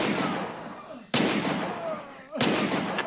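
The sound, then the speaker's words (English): Two sharp gunshots of a man being shot crack out about a second apart. Each is a sudden, loud bang that fades quickly into a steady background hiss. “That's the man being shot, and now listen.”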